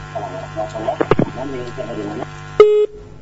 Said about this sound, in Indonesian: Baik, terputus sambungan teleponnya.